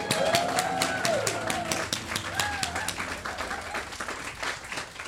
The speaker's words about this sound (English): If you could all give a very big round of applause and please welcome to the stage Labour MP Bel Ribeiro-Addy and political reporter Nadine Batchelor-Hunt.